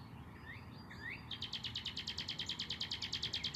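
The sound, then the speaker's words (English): Birds chirp outdoors in a peaceful spot. A few faint swooping calls come first, followed by a rapid, regular series of bright, high chirps that continues to the end. “You hear the birds chirping.”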